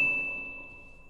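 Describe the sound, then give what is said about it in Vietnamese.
A game-system notification chime: one bright, high ding that rings on as a steady tone and slowly fades away, faint and alone. “Hàng loạt những tiếng tinh tinh của hệ thống vang lên.”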